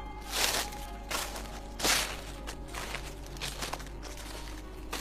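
Rustling footsteps approach in the dark, a few soft crunching steps at an uneven pace over a low steady background.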